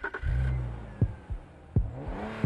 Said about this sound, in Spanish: Redefine la forma en que tomas cada curva, cómo pisas el acelerador y cómo la adrenalina recorre tu cuerpo. Estrena un BMW Serie 3